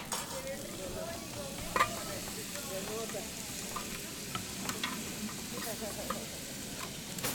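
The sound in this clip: Onion fries for a sofrito with a soft, steady sizzle. Faint stirring scrapes and a few sharp clicks come through the sizzle, and the whole sound stays quiet.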